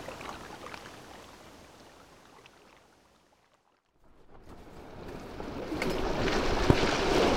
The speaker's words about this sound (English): Today, we're sailing on the Menai Strait.